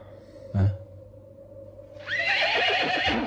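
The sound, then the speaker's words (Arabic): A horse neighs, a loud, rough, wavering whinny filling the second half over a steady background hum. A short thump comes shortly before it. “هيا اركب حصانك، سنرافقك إلى حيث توجد مجموعتك.”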